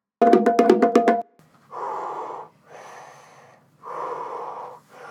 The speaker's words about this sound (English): Hear that? That's your respiratory system helping you breathe in oxygen and breathe out carbon dioxide.